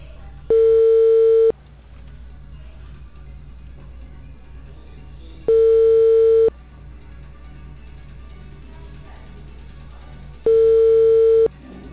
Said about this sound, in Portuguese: Agora tá chamando.